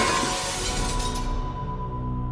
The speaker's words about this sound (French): Alors, sans se mettre en colère, elle se décide à casser les 19 miroirs.